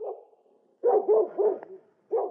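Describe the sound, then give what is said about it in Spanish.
A dog barks at a house in five deep, gruff barks: one at the start, a quick run of three after a pause, then a final bark. “Qué perro.”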